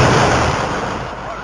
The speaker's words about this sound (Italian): La bomba. Aiuto! Fermi! State fermi!